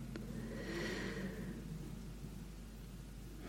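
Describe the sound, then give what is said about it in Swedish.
A slow, deep breath drawn in and let out during a guided relaxation exercise, faint and airy over a steady low hum, with no talking. “Ta ett djupt andetag in och ut.”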